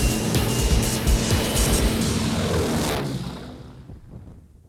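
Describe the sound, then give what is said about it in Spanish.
Airplane beginning its takeoff run, a loud, rushing engine roar that holds steady for about three seconds and then fades away. “Iniciamos carrera de despegue.”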